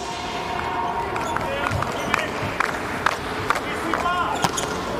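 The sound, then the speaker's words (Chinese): A volleyball serve by a number 17 middle blocker during a match, with a few sharp ball strikes over continuous crowd noise and voices talking. “十七号副攻发球”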